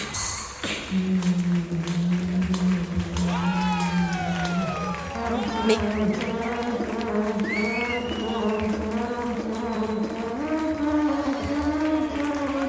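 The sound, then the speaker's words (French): A beatbox set performed for a live audience: a voice makes sustained buzzing hums, sliding whistle-like tones and quick percussive clicks, with crowd noise in the background. “Et maintenant, il va nous faire spécialement pour le public de Ravenloft un set de beatbox.”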